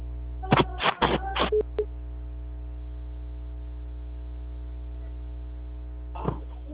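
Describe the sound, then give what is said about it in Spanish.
A telephone call to the Movistar carrier is dialed: a quick run of short tonal key beeps, then a brief single tone, over a low steady hum. Near the end, one more short burst sounds. “Movistar, dile que le estoy llamando a Movistar.”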